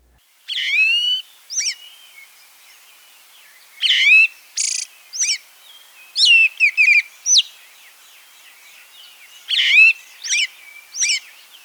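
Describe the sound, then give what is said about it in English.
A great thrush calls in repeated high, whistled and chirping notes. The phrases come in many short, irregular bursts with brief pauses between them, clear and alone. “Great Thrush 1.”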